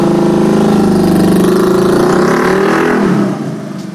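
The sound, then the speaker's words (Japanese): A big scooter's engine rumbles past with a steady, tonal mid-range hum that holds level, then drops away sharply near the end. “アキラみたいなビッグスクーターの人が行きましたよ。青赤いランプ点灯させながら。”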